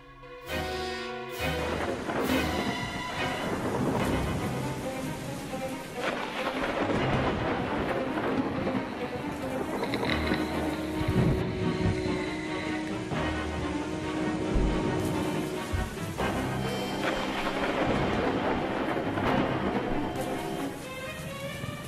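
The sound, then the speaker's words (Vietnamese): Thunder rumbling through a thunderstorm, a continuous deep, dense roll that stays loud and steady for about twenty seconds. “Thỉnh thoảng trên bầu trời, sấm sét cứ thế mà rạch lên từng tia, kèm theo tiếng nổ đinh tai nhức óc.”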